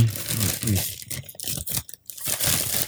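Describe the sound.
Paper tearing and crinkling as a Christmas gift wrapped in paper is opened, several bursts of ripping and rustling broken by short pauses, with no talk.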